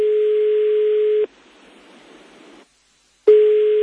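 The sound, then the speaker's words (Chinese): Steady mid-pitched telephone tone signalling an incoming call holds for about a second, gives way to a soft hiss, drops briefly to silence, then the same tone starts again. “有电话入等先。”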